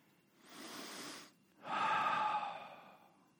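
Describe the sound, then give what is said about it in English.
One slow, deep breath: a soft, airy inhale through the nose, a short pause, then a louder, longer exhale out through the mouth. The breathing is faint and heard alone, with no voices. “How you breathe, that deep breathing of in through your nose, out through your mouth,”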